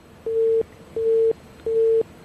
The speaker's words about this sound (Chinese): 王科长迫不及待地挂断电话